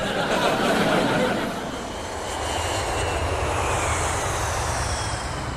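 A steady, droning airplane engine hums in flight, dipping slightly in loudness partway through before settling back to an even, continuous roar.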